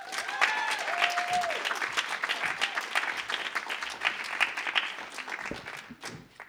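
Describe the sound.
Audience applause welcomes a storyteller to the stage at a live storytelling event. Brisk, dense clapping has a whistle near the start, keeps an even level, and thins out toward the end.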